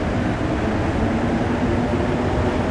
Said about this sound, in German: Dass die Metro in Montreal so leise dahin gleitet, hat mit ihren Reifen zu tun. Keine Stahlräder, sondern Gummireifen.